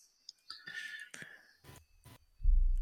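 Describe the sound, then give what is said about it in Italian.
Dice rolled twice during a tabletop role-playing game session: a couple of short, sharp rattling clicks amid soft, whispery rustling, then a heavier thud at the end. “E tiro il dado stavolta due volte.”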